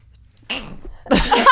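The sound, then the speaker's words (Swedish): A person's sneeze: a brief voiced build-up followed by a loud, sharp burst of breathy noise lasting about half a second. “Det där var en jävligt rolig nys.”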